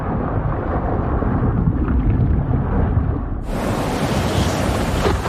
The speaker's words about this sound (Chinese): 海面之上，狂风暴雨肆虐。为了躲避巨浪，大白鲨潜入了深海。